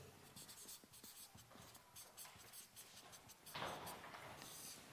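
Writing with a coloured pen: many short, faint scratchy strokes in an uneven rhythm, with a denser, louder stretch of scribbling near the end.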